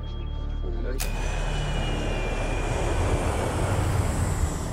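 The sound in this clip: A hijacked airliner in flight gives off a steady, low engine drone. A sharp click cuts in near the start, and the drone continues evenly throughout.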